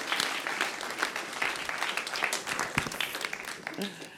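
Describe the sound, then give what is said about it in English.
An audience applauds to welcome a guest speaker at a church gathering with a pulpit. Brisk, dense clapping with scattered louder claps holds steady throughout. “So could you put your hands together? Let's welcome Fraser.”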